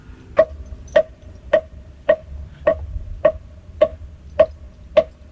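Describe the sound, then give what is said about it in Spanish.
Hollow knocks on a turtle shell played as a percussion instrument, nine evenly spaced strikes in a steady, unhurried beat, each with a short woody ring. “Así suena mi tortuga.”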